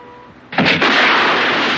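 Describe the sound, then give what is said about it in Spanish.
Heavy gunfire tears through a room in a 1974 mafia crime film scene. After a quiet start, a loud blast breaks in suddenly and becomes a dense, sustained roar of shots. “Los disparos destrozan la habitación.”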